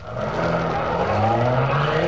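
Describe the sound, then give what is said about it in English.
A getaway car speeding off after a shootout, its engine roaring loudly and continuously with a rising, revving whine as it accelerates. “Get this car going.”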